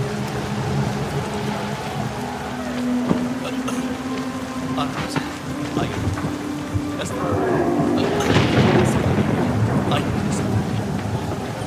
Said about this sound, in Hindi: आ जाइए, इतनी तेज बारिश।